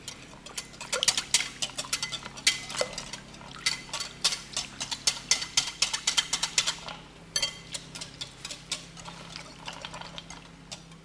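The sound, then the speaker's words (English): A whisk works steadily through thick, heavy melted chocolate in a pot, producing many quick, irregular clicks and wet taps against the metal at a busy, continuous pace, with no talk. “so now it's been four minutes of whisking, and I can definitely feel my chocolate becoming heavier and thicker”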